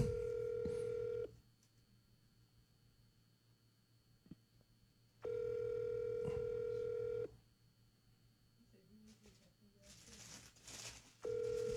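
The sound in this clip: Ringback tone of an outgoing call to a Google Voice number: three steady, mid-pitched tones, each about two seconds or shorter, separated by long quiet gaps of roughly four seconds.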